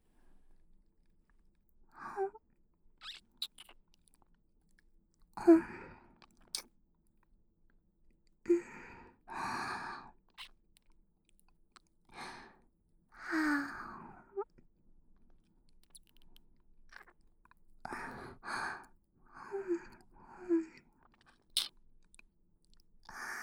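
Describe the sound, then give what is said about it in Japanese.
Wet mouth sounds from a Japanese vampire role-play, sucking and biting at an earlobe: soft smacks, slurps and crunchy nibbles arrive in irregular bursts, broken by quiet pauses and a few breathy sighs. “それでは、お待ちかねの血を吸わせてもらうとしよう。今日はこちらの耳たぶから。いただきます。”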